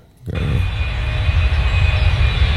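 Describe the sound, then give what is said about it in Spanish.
An airplane taking off, its engine roar starting abruptly and holding as a loud, steady low rumble with a thin high whine above it. “Vamos a despegar.”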